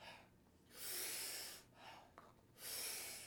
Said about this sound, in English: taking about 40 powerful breaths into the body through the mouth. Really big inhale and just a soft exhale.